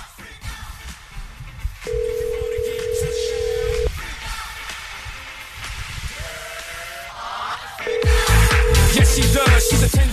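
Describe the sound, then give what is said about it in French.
Telephone ringback tones sound while a call is placed to a contest winner: long, steady, mid-pitched beeps repeat over lively background music and chatter. “OK, on appelle la personne gagnante aujourd'hui.”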